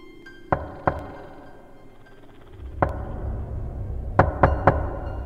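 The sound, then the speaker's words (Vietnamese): Knocks sound on the door of a five-room tiled house: two sharp raps, a lone knock, then a quick group of three over a low, steady rumble. “Cô định cất tiếng hỏi lại một lần nữa thì tiếng gõ cửa lại vang lên.”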